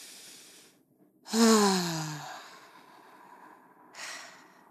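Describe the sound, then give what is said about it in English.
Breathing in and out through the mouth during a relaxation exercise: softer airy breath noise surrounds one long, loud, voiced exhale with falling pitch, and a brief breath returns near the end; no talking. “Inhale through your mouth. Exhale through your mouth.”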